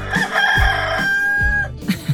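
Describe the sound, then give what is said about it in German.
A rooster crows once in a long, bright, harmonic call with a sustained high note, followed by a couple of short clucks. “In Bergneustadt Wiedenest. Da wurden drei Hähne entführt.”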